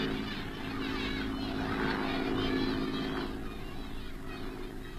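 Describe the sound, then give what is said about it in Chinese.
Droning engine noise of Japanese aircraft flying overhead, a steady, continuous rumble with a low hum that holds at an even loudness for the full five seconds. “快来看日本飞机”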